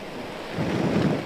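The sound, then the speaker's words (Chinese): Gusting wind roars over a footbridge in Xujiahui, central Shanghai, during a typhoon as the rain eases. A broad, rushing noise swells louder about halfway through and stays strong, with no talk. “那么现场其实可以看到，时不时的仍然有阵风吹过，并且这个风力和雨力虽然是已经比我们来的时候已经小了很多”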